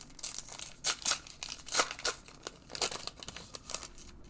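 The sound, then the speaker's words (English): Crinkling and tearing of Match Attax 23/24 football trading card foil packs being ripped open. A few sharp bursts of crackle stand out against quieter rustling in between, with no voices. “So we're getting into the Eco Pack, which is very nice.”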